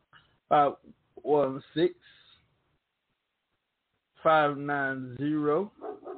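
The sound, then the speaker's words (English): A dog barks and yips in short, high, harmonic bursts: a quick run of three yaps, a gap, then a longer, whining string of barks. “My dog putting his 2 cents in.”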